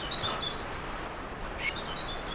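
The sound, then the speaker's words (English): Bicknell's thrushes singing in mountain trees: a few faint, high, thin notes over a steady rumble of wind. “two Bicknell's thrushes flit and tumble through the trees, almost close enough to touch. They're not much to look at, olive and speckled brown, but then, through the rumble of wind, they begin to sing.”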